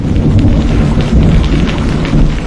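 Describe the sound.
Rain begins to fall outdoors near a stream as thunder rolls. A dense, loud hiss of rain blends with a deep, unbroken low rumble throughout.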